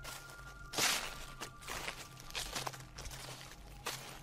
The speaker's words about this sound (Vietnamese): ở bên ngoài lại có tiếng bước chân nhẹ nhẹ dẫm lên đám lá khô.